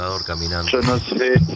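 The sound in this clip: Crickets chirp in a steady, high, thin trill that runs under a nearby voice.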